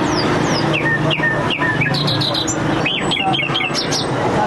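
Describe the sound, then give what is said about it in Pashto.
Many quick chirps, tweets and whistled calls of caged wild birds, such as bulbuls, partridges and mynas, at a bird market in Kandahar, overlapping densely over a steady background hum. “دا د کندهار شهر په منځ کې د وحشي مرغانو د پیر او پلور بازار دی دلته پلسکونه بیلابیل ډول وحشي مرغان لکه بلبلان جلان زرکی میناوی او نور چې په غرنوی او ځنګلي سیمو کې نیول سوي پلورل کیږي”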